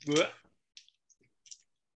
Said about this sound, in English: Then roll my dice.